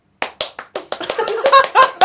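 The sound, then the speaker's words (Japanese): Audience applause at a lively show after a food tasting: a few sharp, separate hand claps at first, then denser, louder clapping mixed with voices. “初めての現象です。 すごい 拍手が来るの。”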